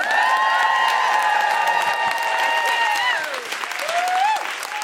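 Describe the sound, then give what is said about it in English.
A live comedy audience applauds and cheers as a comedian takes the stage, with loud, dense clapping and high whoops sliding over it throughout. “Please welcome to the stage with general woohooing and thank yous, Jessica Fostercue.”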